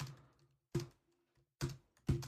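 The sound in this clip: Keyboard typing, heard as four short bursts of clattering keystrokes separated by brief pauses, each burst fading quickly.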